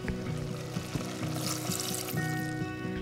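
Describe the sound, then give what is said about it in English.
Water pours into a simmering carrot mixture for pickled carrots, a continuous splashing, trickling flow lasting about three seconds at an even level. “After the carrot mixture has simmered for 5 minutes, then it's time for the water”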